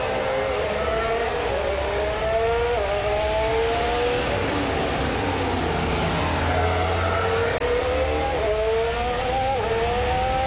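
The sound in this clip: A Formula 1 car drives out of the pit lane, its loud engine note climbing in stepped pulls through the gears over a steady roar, with no talk.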